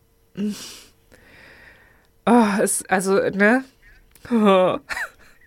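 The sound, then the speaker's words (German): A human voice imitates the soft groaning of a 15-year-old dog with arthrosis as she gets up and lies down. A breathy start leads into a few low, wavering, nasal moans. “Sie stöhnt beim Aufstehen und sie stöhnt beim Hinlegen. Also ganz leise, ne? Halt immer so.”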